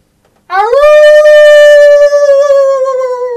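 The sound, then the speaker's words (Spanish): A person imitates a wolf howl: one long, loud howl that starts low, rises quickly, then holds a steady pitch with a slight waver near the end, heard alone. “¿y el pinche aulla o no? Un aullido puede ser.”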